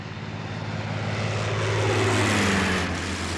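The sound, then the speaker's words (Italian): A red propeller airplane flies overhead with a loud, rumbling engine drone that swells to a peak, then eases slightly while its tone drops a little as it passes. “Ah, guarda! Un aeroplano rosso!”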